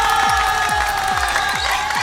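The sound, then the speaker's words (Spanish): A round of applause with crowd cheering, an even wash of clapping over a steady, pulsing low thump that repeats throughout. “Bueno, si estás así, qué bueno, un aplauso para ti, ¿no?”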